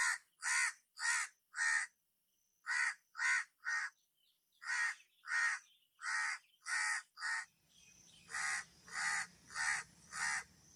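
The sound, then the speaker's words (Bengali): Crows caw together in loud, harsh, evenly spaced calls grouped in short bursts of three or four, with many caws in all. A low rumble joins the final run of calls. “আরো যত কাক ছিল সবাই সে দোকানের আশেপাশে সমবেত হলো এবং অভ্যাসবশত সমস্বরে কা কা করতে লাগলো”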